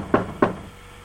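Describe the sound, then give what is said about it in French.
Two dull knocks on a carpenter's shop door, evenly spaced and close together, followed by quiet. “À ce moment, on frappa à la porte.”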